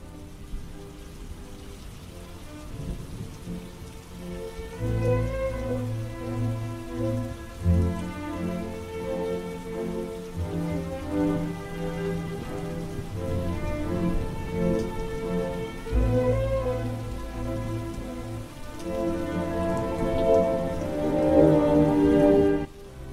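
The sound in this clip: Steady rain falls throughout, set in a cemetery at night, as a dense continuous patter with low tonal sounds swelling underneath and growing louder toward the end.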